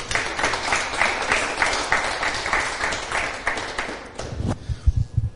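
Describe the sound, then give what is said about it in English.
Applause from an audience welcomes the guest of honor, the XFL commissioner. The crowd claps steadily and fairly loud for about four seconds, then the sound fades quickly and a few low thumps follow. “Without further ado, let's welcome the guest of honor, Oliver Luck, the commissioner of the XFL. Give him a hand.”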